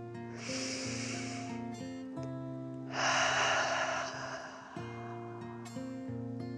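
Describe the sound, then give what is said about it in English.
A slow, deep breath in and out, with two long breathy swells, an inhale and then an exhale, over quiet, steady sustained music. “took another dragon breath in and out.”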